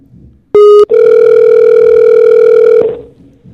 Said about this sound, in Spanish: Sí. Estamos llamando.